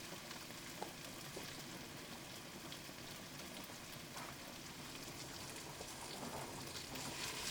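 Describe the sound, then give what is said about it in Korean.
Food stir-fries in a pan with a soft, continuous sizzle, faint and even, with occasional light scraping ticks as the ingredients are moved around. “요거는 계속 잘 볶고 있고 소스를 한 숟갈 정도만 넣어주고”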